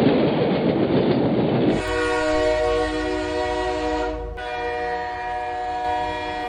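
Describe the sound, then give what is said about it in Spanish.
A train grinds to a stop: a low, rolling rumble gives way after about two seconds to a loud, sustained high-pitched squeal with a steady tone. The squeal holds to the end, with a brief break partway through. “En principio, desde Colby a Calcuta iban a ir en tren, pero el tren se paró.”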